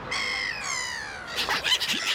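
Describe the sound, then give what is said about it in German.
Seagulls call: a long, piercing, harmonic cry that falls slightly in pitch, followed by a few harsh, rapid squawks, loud and with no voices. “Habt ihr es erkannt? Genau, es geht um Möwen.”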